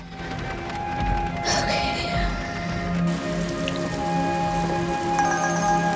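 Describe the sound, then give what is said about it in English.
Heavy rain pours down on a car in a dense, steady patter of drops on the body, with small swells in loudness. “Rain pours down on her car as she gets a call.”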